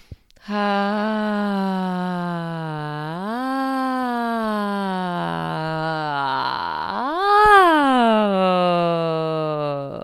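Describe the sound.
A person does vocal toning to open the throat, holding one sustained low, buzzing tone for about ten seconds, alone, with two smooth upward swells in pitch before it settles back down.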